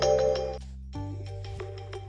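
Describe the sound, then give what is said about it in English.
A phone ringtone goes off during a call. Bright electronic tones play, stop for a moment, then start again more softly, with no talk. “that was a phone call in there. Excuse that.”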